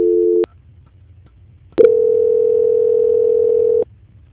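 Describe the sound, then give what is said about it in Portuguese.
Telephone line tones during a call transfer: a short steady tone, about a second of near silence, then a long, clear, steady tone of about two seconds with no talk. “eu vou transferir o contato para o controle de qualidade, que dará continuidade à sua contratação. Só um momento, por gentileza. Transferência.”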